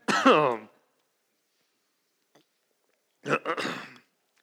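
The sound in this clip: Throat clearing and coughing from a man who chokes on his own tongue mid-sentence: a harsh, voiced burst, a pause of near silence, then a second rougher cluster of clearing.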